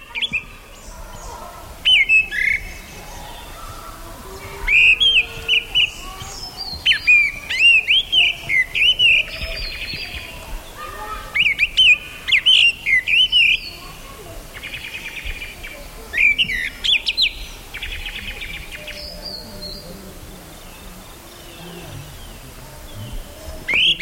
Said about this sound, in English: Here's the sound of the gray-winged blackbird recorded in 1982 in India.